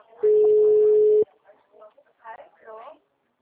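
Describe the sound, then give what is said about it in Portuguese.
A single steady telephone tone after a dropped call, a flat mid-pitched beep lasting about a second, followed by a voice talking. “Oi, qual Oi, caiu a ligação.”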